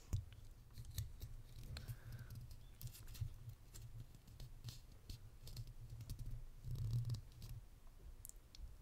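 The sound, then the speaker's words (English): Soft clicks and light rustling from a tape measure being handled during an ASMR face-measuring roleplay, with a steady low murmur underneath and a few slightly louder handling sounds. “Okay, so I'll just get my tape measure again.”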